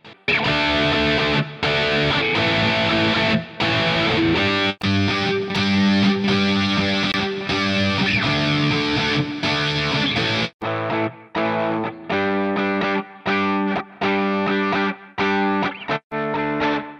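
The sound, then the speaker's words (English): Distorted electric guitar plays through a boutique-style amp and effects plugin, with thick driven chords and a shimmering chorus-like swirl. Frequent brief cuts chop the playing, and the tone turns thinner and more clipped in the second half. “This is a collection of boutique-sounding gear, as all of the amps and effects were designed by Mike Scuffem. This plugin should help you stand out from all of the other typical guitar sounds that are out there.”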